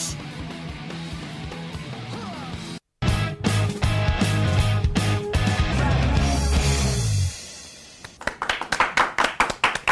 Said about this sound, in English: Well done. Well done. They clapped.